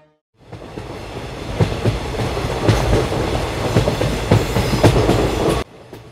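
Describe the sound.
A train running on rails gives a loud, steady rumble broken by rhythmic clickety-clack wheel beats. It starts abruptly after a brief silence and cuts off just before the end.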